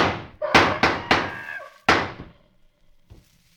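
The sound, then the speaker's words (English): A cage door is shut with a few heavy metallic slams and thunks in quick succession, then a fainter knock after a short pause. “I'm shutting the cage door.”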